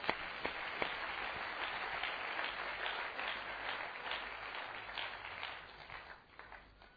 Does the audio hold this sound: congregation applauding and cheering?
yes